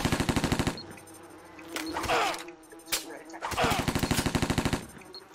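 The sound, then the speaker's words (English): MP5 submachine gun fired in burst mode in a video game: rapid, evenly spaced shots in two loud volleys, one opening and one closing, with brief speech between them. “MP5 burst fire equipped. MP5 burst fire.”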